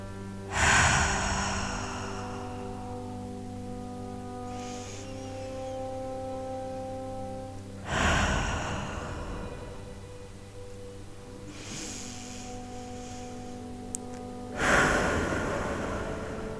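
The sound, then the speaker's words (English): Deep cleansing breaths during a guided meditation: three strong, slow inhales spaced several seconds apart, each followed by a softer, longer exhale, over a steady, soft musical drone. “we'll start with some deep cleansing breaths.”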